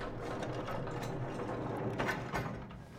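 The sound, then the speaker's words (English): A freight elevator runs with a faint mechanical whirring and rattling, like gears turning, that stays steady and swells slightly near the end. “Call the freight elevator.”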